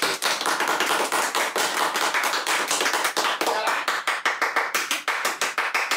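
Audience applause to open a new year's kickoff event: dense, loud clapping from many hands that fills the whole stretch and becomes more evenly spaced and rhythmic toward the end.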